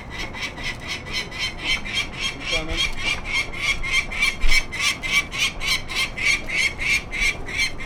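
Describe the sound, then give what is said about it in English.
Harsh alert calls from a female peregrine falcon perched on an observation-deck railing below her nest box. She gives a rapid, steady series of many loud, raspy cackling notes with no real pauses. “the female peregrine falcon lands on the railing with a sharp, threatening look. In no time, she begins giving alert calls to her mate.”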